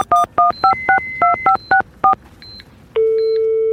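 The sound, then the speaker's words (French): Telephone keypad dialing tones from a phone being used to place a call: a rapid, loud series of about ten short dual-pitch beeps, then a steady unbroken tone takes over for the last second. “Bon, maintenant il faut que j'appelle Nathalie.”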